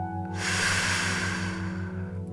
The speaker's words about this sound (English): Let's pause for just a brief moment to take a deep breath in and out.